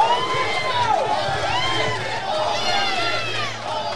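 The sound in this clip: A crowd at a wrestling event chants in rising and falling sing-song phrases, loud and sustained, with a commentator talking over it.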